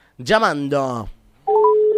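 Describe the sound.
A telephone dials a call: after a brief voice, a short run of electronic dialing beeps steps up in pitch, then a steady tone holds.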